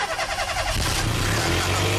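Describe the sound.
A car engine starting up: a loud mechanical roar that thickens into a steady, heavy low rumble and keeps running at an even level, with no voices.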